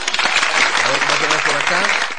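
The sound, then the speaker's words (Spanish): Audience applause, a dense burst of many hands clapping at steady loudness, with a voice speaking over it partway through. “por favor, esos aplausos de los Alushes.”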